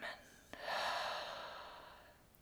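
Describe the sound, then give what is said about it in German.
Loud human breathing during a guided breathing exercise: a brief intake, then a long, breathy exhale that swells and slowly trails off, with no talking. “und laut wieder ausatmen. Und nochmal einatmen. Und wieder ausatmen.”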